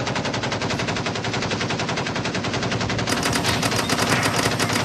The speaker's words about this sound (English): So there's some extra machine gun action this week.